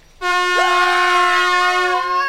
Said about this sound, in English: How about an air horn?